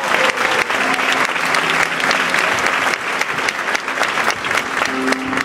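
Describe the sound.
Audience applause for a speaker at an evening gathering: dense, steady clapping from many hands, a continuous crackling wash holding an even loudness for about five seconds with no clear pauses.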